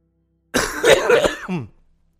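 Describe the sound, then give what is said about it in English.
A harsh cough spoken straight into a microphone: one loud, raspy burst with a brief second push near the end, then silence. “Once again, I thought I muted my mic and then coughed right into it.”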